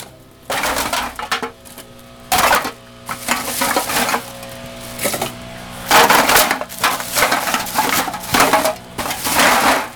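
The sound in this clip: A full bag of empty beer and pop cans is crushed, giving many loud, irregular bursts of crinkling, clattering metal with brief pauses between them and no talking.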